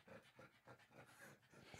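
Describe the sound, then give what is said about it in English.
A pug dog pants and whimpers in quick, rhythmic bursts of breath. The panting is many short, evenly spaced puffs at a moderate level, with higher whining tones mixed in. “Shush. Control your dog.”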